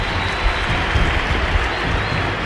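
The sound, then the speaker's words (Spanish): Stadium crowd applauding at a football match as a substitute player comes on, a dense, steady roar of clapping and crowd noise that carries on without a break. “Se cayó el estadio con aplausos a Gary Medel acá.”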